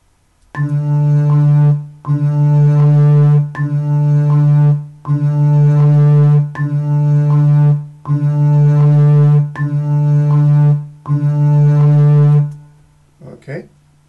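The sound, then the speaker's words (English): A double bass playing half notes: eight long, evenly spaced notes on the same low pitch, each sustained and then briefly released before the next, in a steady rhythm played alone. “And a half note on the double bass sounds like this.”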